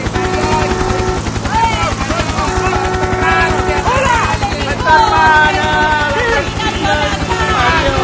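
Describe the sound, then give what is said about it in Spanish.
A helicopter descends toward a waiting crowd, its rotor beating in a fast, steady, loud chop that never lets up, with voices over it. “En este momento voy a bajar con el helicóptero para recibir el calor del público.”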